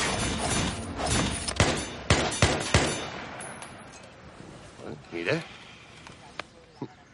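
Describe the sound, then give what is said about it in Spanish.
Several sharp gunshots during outdoor shooting practice at a country house, cracking out in an uneven sequence over a steady noisy background, with a voice speaking alongside. “Moscú practica tiro con Helsinki.”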